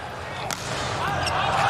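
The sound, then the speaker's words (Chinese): A powerful volleyball jump serve struck in a China versus Japan match gives one sharp smack over a dense, steady background roar, with the din swelling slightly afterward. “王斌大力跳发。”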